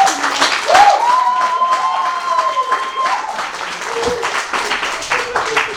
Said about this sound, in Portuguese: Podem aplaudir.